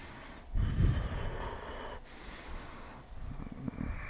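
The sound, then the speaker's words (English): Nasal breathing with the lips sealed during a yoga practice: a few breathy, slightly snorting inhales and exhales through the nose. They are fairly soft and heard alone. “seal your lips and begin to generate the flow of your breath.”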